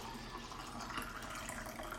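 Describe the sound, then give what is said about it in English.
Coffee being poured from a pot into a cup, a steady continuous liquid pour with a soft, even splashing hiss that holds at moderate, unchanging loudness throughout. “Let me pour some coffee here.”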